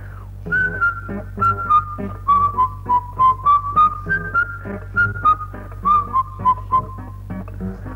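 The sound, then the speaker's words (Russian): A man whistles a melody as he walks past, a long run of clear, high notes in a steady rhythm that drift gently lower, then rise again, loud and alone. “Мимо меня проходит человек, который насвистывает мелодию. Как проходит, так и уходит.”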